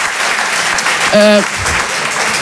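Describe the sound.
Audience applause at a live show in a hall, a loud continuous wash of clapping with a brief whistle-like tone partway through.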